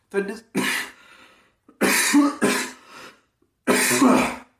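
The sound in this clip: A man coughing harshly to clear something caught in his throat, a series of several rough, forceful bursts separated by short pauses.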